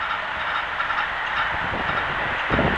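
A moving train gives a steady, dense roar with hiss and a few low rumbling thumps near the end, with no voices.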